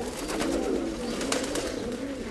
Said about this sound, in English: The fluttering of pigeons in the courtyard mixes with the early morning stirrings of this storied household dating to the 1700s.